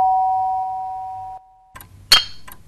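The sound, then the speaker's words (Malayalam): A calling bell rung by pressing a switch at the head of a bed sounds a steady electric tone for over a second, falls silent, then gives a single loud, sharp ringing strike near the end. “അത് വെച്ചാണ് കട്ടിലിൻ്റെ തലക്കീലുള്ള സ്വിച്ചിൽ അമർത്തി ഈ calling bell അടിക്കുന്നത്.”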